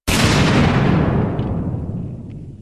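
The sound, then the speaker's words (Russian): A single explosion bursts with a sharp onset, then a loud, deep rumbling roar slowly decays over the next two seconds. “Впереди грохнул взрыв. В небо поднялся столб огня.”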